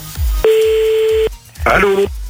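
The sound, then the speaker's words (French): Telephone tones while calling someone back: a long steady electronic tone, a brief pause, then a shorter buzzier tone, with low thumps around them. “on rappelle quelqu'un d'autre”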